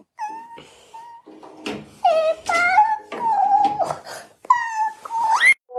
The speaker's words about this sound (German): Das, was du gerade gehört hast, war mein kleiner Sohn. Ich habe den Zeichentrick ausgeschaltet und der hat geweint.